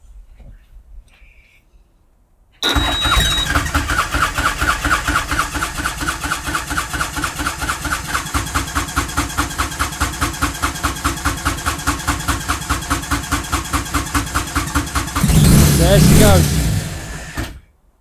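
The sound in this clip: A tuk-tuk engine, hot-wired by joining the two main feed wires and a starter signal wire, fires up abruptly and settles into a loud, steady, rhythmic putter, then revs briefly near the end.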